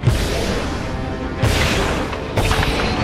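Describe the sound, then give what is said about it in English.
Missiles being launched as a film sound effect: three sudden loud bursts, evenly spaced, each breaking over a steady, heavy roar that runs throughout. “Missiles away.”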